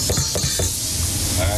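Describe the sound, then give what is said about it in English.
A spoon stirs a pot of creamy, beanless chili with soft scraping and thick sloshing, over a steady sizzling hiss. “Give the chili a good little stir.”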